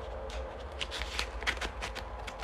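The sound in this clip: Scratchy cutting and rustling as a package is slit open: a quiet run of short crackling scrapes and rasps with no clear pauses and no voices.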